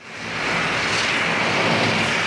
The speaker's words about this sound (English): Under a smoke-filled sky, three large airplanes, scoopers as they're called in the fire world, take off from an airfield next to a base for Quebec's firefighting agency.